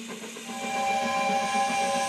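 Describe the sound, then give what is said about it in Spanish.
A steam train whistle sounds as a steady, shrill, multi-toned blast over a hissing steam background. It grows louder partway through and holds to the end. “Una ruta que recorre todo el país, el Tren de la Cultura. Desde las 3 de la tarde, enciende su motor y te lleva por las siguientes estaciones.”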